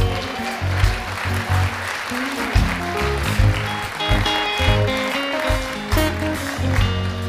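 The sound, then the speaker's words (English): A church audience applauding to welcome guests, dense steady clapping from many hands that stays loud throughout with slight surges. “Church, can we give our guests a welcome, please?”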